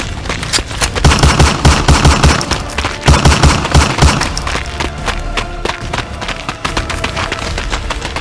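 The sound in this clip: Gunfire rings out in loud, rapid bursts of many shots, clustered volleys coming one after another and keeping up a dense, rattling barrage.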